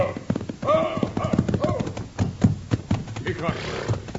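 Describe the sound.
Hooves of a horse galloping hard down a road, a quick, uneven clip-clop of fairly loud beats. A voice is heard over the hoofbeats.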